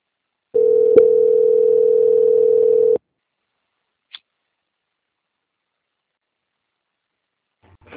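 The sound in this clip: A steady telephone line tone plays while a call is being transferred, holding for about two and a half seconds with a click partway through, then silence broken by a short click and faint noise near the end.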